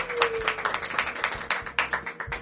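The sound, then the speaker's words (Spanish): A small group applauds at the opening of a university debating association program, a loose, uneven patter of individual hand claps at moderate volume. “hoy en su segunda temporada, así que un aplauso, ¡bien!”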